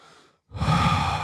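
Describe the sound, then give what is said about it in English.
A person imitates labored, struggling breathing: a faint short breath, a brief pause, then one long, loud, rasping breath that holds steady to the end. “And breathe. And then he'd have to let go of that weight and drop back down and keep doing that, struggling to breathe every time.”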